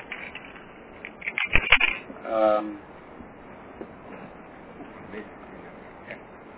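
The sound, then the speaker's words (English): Scratchy writing strokes on a board come in a short cluster of quick scrapes and taps, then one longer stroke, before fading into a quiet room hum. “I'm writing here on the areas, like everyone would see.”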